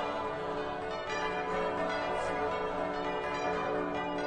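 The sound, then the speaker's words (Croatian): Old church bells ring in Croatia, making a dense, continuous wash of overlapping metallic tones that carries on unbroken at an even loudness. “Zagreb Krašić, Marija Bistrica, stara zvona, splita sveto duje, zvone”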